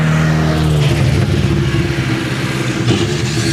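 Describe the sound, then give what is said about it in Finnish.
A Skoda rally car's engine roars as it arrives at the special stage finish. It is loud and continuous throughout, with the engine's pitch shifting as the car revs. “Skoda on saapunut erikoiskokeen maaliin”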